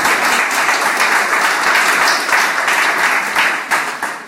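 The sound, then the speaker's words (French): An audience applauds during a church service: dense, loud, sustained clapping that holds steady for several seconds before thinning slightly toward the end. “Est-ce qu'on peut acclamer le Seigneur Jésus pour cette grâce?”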